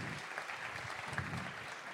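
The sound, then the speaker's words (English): Applause from the audience at a pun championship, a brief, steady, fairly faint clatter of many hands clapping throughout. “Give that man a round of applause.”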